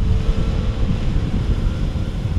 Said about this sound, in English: The Nile Taxi picks me up.